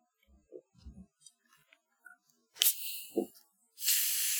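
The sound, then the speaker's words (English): Faygo cream soda being cracked open. A few quiet clicks and small handling knocks lead to a sharp burst of fizzing hiss, then a short pause and a longer sustained hiss of escaping carbonation, faint overall. “I also have a genuine delicious Faygo cream soda? Oh my God. That's amazing. It is amazing. Let's crack these bitches open.”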